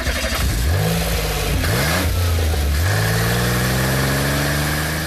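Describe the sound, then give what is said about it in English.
A brand-new shiny red Ferrari sports car accelerating hard: loud engine revs whose pitch climbs in several quick sweeps through gear changes, then settles into a sustained, higher-pitched drone. “the cowl and the pussycat sped off into the distance in a shiny red Ferrari”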